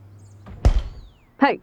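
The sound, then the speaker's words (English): A door is pushed shut with a single heavy thunk, and a brief voiced sound follows soon after in otherwise quiet surroundings. “You may close the door now, servant, but stay near.”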